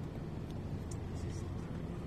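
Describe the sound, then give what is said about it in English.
A steady, dense rumble of road and engine noise from inside a moving car, holding at a constant level without distinct events. “And so we're riding back now and in the car.”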